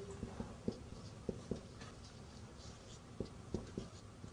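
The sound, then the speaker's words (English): A teacher writes a word, making faint, scattered taps and scratches of the writing tool, a few quick strokes at a time with pauses between them. “Maybe I should write it.”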